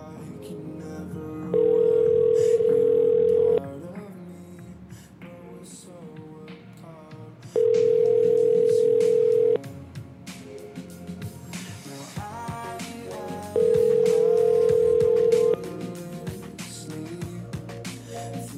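Ringing tone of an outgoing telephone call: three long, steady, mid-pitched tones, each about two seconds, separated by pauses of roughly four seconds, over a constant busy background.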